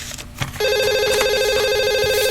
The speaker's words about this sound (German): Oh Mann, schon wieder so ein Anruf.